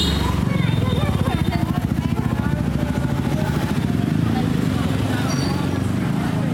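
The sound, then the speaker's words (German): Scooters pass along a busy lane in Hanoi's Old Quarter, Vietnam: a continuous, pulsing engine drone mixed with street bustle and a murmur of voices. “Ich stehe in der Altstadt von Hanoi in Vietnam. Auf den Gässli fahren Roller, Halsbrecher ist knapp an den Leuten vorbei. Es ist reger Betrieb”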